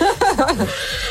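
Horse whinny, a short neigh with rapid wavering pitch quivers that trails off into quieter breathy noise.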